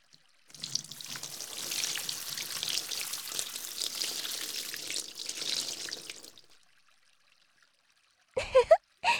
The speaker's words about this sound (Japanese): 冷えちゃうとお湯も熱く感じちゃいますよね。でももう一回流しますからね。